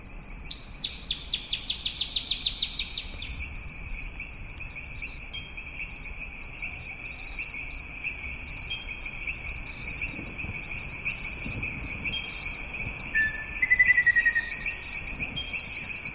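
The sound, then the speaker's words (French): An evening wildlife soundscape, dense with insects: a steady, high-pitched cricket trill fills the whole clip, with a run of rapid pulsed clicks at the start and a brief bird chirp near the end. “C'est le soir, il y a des amphibiens, il y a des insectes, il y a aussi des mammifères, des oiseaux, il y a un petit peu de tout.”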